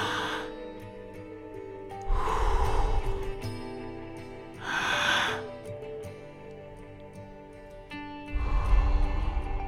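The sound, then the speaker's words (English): Slow deep breaths in a guided relaxation exercise: three long, airy swells spaced several seconds apart, soft and unhurried over faint sustained background tones. “But just take a few deep breaths. Follow with me.”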